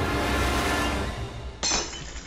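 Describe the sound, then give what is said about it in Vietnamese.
A vase and an incense bowl fall and shatter on a brick floor: one bright, sharp crash of breaking pieces bursts out near the end over a steady, loud rumbling noise. “Lọ hoa bát hương đổ xuống nền gạch rồi vỡ tan tành.”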